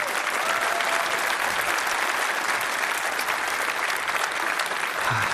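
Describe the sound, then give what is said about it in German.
An audience applauds a contestant after a score is announced at a quiz-style competition: steady, dense clapping at a fairly soft level that runs evenly for the full length without pausing. “nochmal einen Applaus für Alex”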